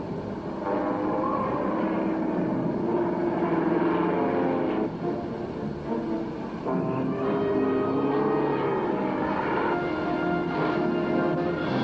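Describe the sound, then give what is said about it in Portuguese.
Steady engine drone of a Super Cub light propeller airplane coming in to land in strong wind, a loud continuous hum with layered harmonic tones that holds throughout without talk. “Supercub 09 Tango, a 2 milhas ao norte. Já estou indo para a aterrissagem.”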